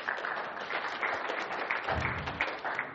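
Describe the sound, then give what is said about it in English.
An audience claps for willing volunteers, a steady, dense patter of many hands that holds at an even, fairly soft level throughout. “Everybody, let's give them a little clap for being”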